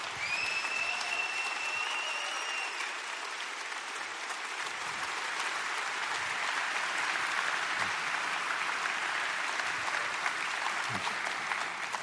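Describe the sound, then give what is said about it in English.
An audience applauds while standing to welcome a guest pastor. The clapping is dense and sustained, holding at an even level for the whole stretch. “Would you please stand to your feet and give a warm welcome to my friend, Pastor Bruce Frank.”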